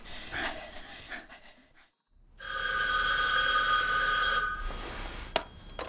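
A telephone rings in one long, bright, continuous electronic burst, loud and steady, after a quieter stretch of low rustling and a brief pause of near silence.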